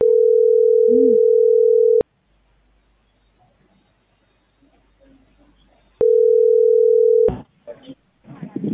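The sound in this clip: Telephone dial tone while a call is being placed: a steady, unbroken low hum that runs for two long stretches. A near-silent gap with faint rustling separates them, and a few brief noisy bursts follow the second stretch.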